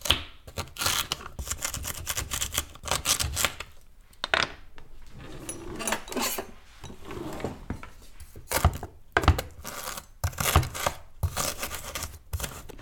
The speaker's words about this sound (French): Voilà, donc on coupe le gingembre en petits morceaux, je le mets dans le bocal.